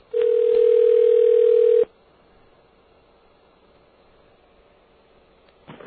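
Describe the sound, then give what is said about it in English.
A telephone dial tone sounds while a call is placed from a radio studio: a steady, single-pitched hum for about two seconds that cuts off abruptly into faint line hiss, with a short burst of noise at the very end. “We're going to try to call him. I'm not sure if he's at his house or at his cell phone, so let's go out onto the dial 9 there.”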